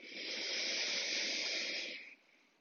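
A long, hissy breath during a guided breathing exercise. The airy rush holds steady for about two seconds, then quickly fades to a faint tail, with no other sounds.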